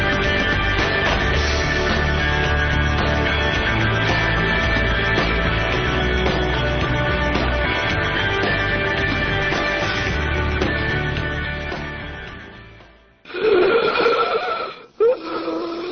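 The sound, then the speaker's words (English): Strained, wheezing breaths during an asthma attack come near the end, after music plays and fades out. A couple of loud, raspy gasps follow each other in quick succession. “This is the sound of an asthma attack.”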